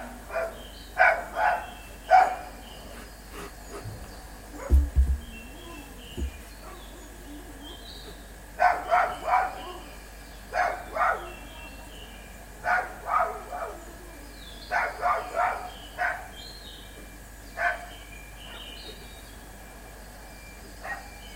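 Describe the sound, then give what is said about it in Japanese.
Dog barking: many short, faint barks in pairs and clusters, separated by quiet gaps against a low background hush. “ワンコ。”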